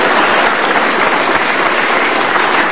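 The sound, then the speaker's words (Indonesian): Sustained audience applause at a live stage event as a poet is welcomed to read. Dense, loud clapping holds steady and even throughout, with no talk over it. “Sekali lagi tepuk tangan dong untuk Kiai Haji Mustafa Gus Mus.”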